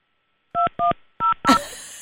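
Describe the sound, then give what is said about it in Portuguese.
Telephone keypad tones as a number is dialed to a person's home: three short, clear dual-pitch beeps, then a harsher, noisier burst that quickly fades away. “Não estou muito convencido com este número que eu marquei. Estamos a ligar para a casa de uma pessoa.”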